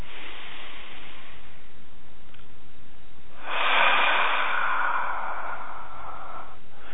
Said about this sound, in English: I'm going to take another nice deep breath.